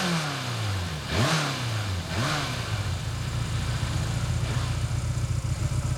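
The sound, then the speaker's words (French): A motorcycle engine gives two quick revs, each dipping and then surging in pitch, before settling into a steady, low, even purring idle that runs on to the end. “Ah, c'est vrai qu'elle ronronne maintenant. Ah, vous voyez ce que je sais faire. Mais toutes les motos font comme ça, hein.”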